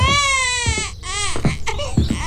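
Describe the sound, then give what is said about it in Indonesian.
An infant cries in several loud, drawn-out wails, each straining high and then dropping, followed by shorter choked sobs. “Dari tadi tidak berhenti menangis.”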